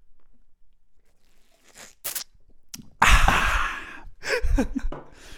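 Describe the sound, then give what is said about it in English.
Two people drinking at the same time, with a few short mouth and breath sounds followed by a longer, louder stretch of gulping, slurping and breathy exhalations. “Oh, no, we both went to drink at the same time.”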